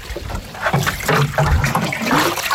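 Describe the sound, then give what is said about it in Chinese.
Water poured onto newly planted pine seedlings on uneven hillside ground makes a steady, continuous gushing and splashing that holds level throughout, with no voices. “开始干活了，从南往北浇，每棵苗一桶水，别落苗。”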